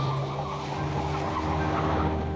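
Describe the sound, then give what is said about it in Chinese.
Car engine running with a steady, low, droning hum that holds an even pitch throughout, fairly quiet and without voices. “顾青发动了汽车。”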